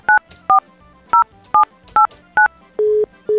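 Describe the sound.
Touch-tone telephone dialing as a number is keyed in: six short, crisp dual-pitch beeps in an uneven rhythm, then two longer, lower steady tones. No voices.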